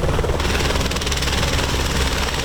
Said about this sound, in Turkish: Ekiplere bildirilmesinin ardından bölgeye helikopter sevk edildi.